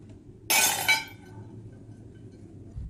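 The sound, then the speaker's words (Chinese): Unsatisfactory kiln-fired porcelain pieces are smashed at a family pottery workshop in Chenlu. One loud, bright shatter is followed quickly by a second burst of clinking shards, then near silence and a faint low thud at the end. “每次窑炉烧出来肯定有不满意的作品，这摔了20多件”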